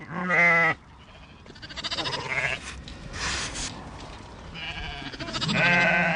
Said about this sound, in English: A local crofter gathers his flock into a muddy enclosure to mark and castrate the lambs before setting them loose to graze.